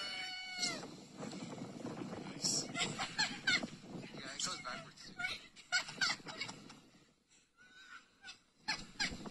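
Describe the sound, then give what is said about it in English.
Children sled down the center of Galleon Avenue, a snowy street in Brookline, laughing and giggling, with bursts of high-pitched shrieks and chatter rising and falling throughout. “This is actually a kid's riding a sled. Very, very cool. Down a hill.”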